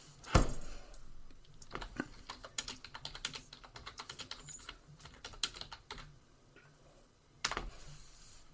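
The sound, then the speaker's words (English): Typing a message on a computer keyboard for a Zoom chat: many quick, irregular key clicks of varying loudness, with a few sharper, louder taps standing out near the start and close to the end. “I was just gonna type him a message too.”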